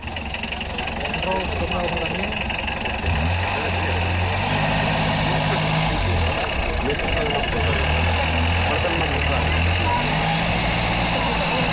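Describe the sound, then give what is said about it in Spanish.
A 1949 vehicle's engine runs at low revs with a steady, low throbbing drone. Its deep, even harmonic hum stays constant throughout, with no clear acceleration. “el sonido de su motor, del siguiente que vamos a escuchar, fue el que sugirió el apodo de modelos como este, un vehículo de 1949.”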